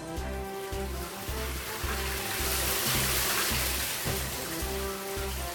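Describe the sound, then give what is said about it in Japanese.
Steady rushing water flows along a long trough linking Tateyama and Hakusan, a continuous bright wash heard over a rhythmic, pulsing musical backing. “越中の人たちが水を流すと、トイを伝って水は白山の方へ流れました。”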